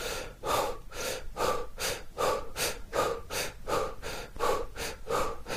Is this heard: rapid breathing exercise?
yes